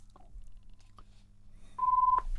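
A telephone line sounds a single steady mid-pitched beep lasting under half a second, preceded by a couple of faint clicks over low background hum.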